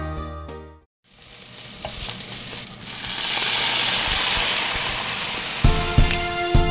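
Steady sizzling of a coffee-flavoured beef stroganoff-style curry frying in a pan, a continuous hiss that swells slightly in the middle, with brief tonal sounds at the start and end.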